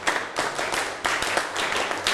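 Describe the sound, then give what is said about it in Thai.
Claps from a class of children applauding on a teacher's command, a few sharp bursts of hand claps spaced irregularly and fairly loud, with no talking over them. “ปรบมือ1ครั้งปรบมือ2ครั้งปบมือ1ชุด”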